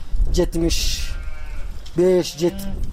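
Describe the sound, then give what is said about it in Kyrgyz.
Sheep and goats bleating in a herder's flock of over seventy small livestock: a few short, tonal bleats come in two bursts, one early and one toward the end, over a low background rumble. “Аллага шүгүр, мына ушул майда жандык полный эле меники 70 ашты.”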